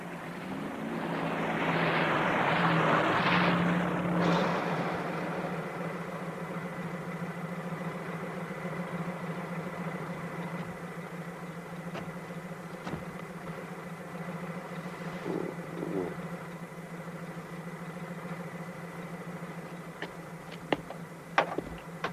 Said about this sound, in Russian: Навстречу подъезжает милицейская машина.